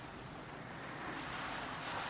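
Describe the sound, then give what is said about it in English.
Gentle ocean waves on a beach, a soft continuous wash of surf with some wind noise, swelling slightly louder partway through. “And here you are relaxing near this gentle ocean.”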